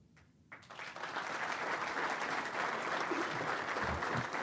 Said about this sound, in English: How about another big round of applause for our 40 and 30?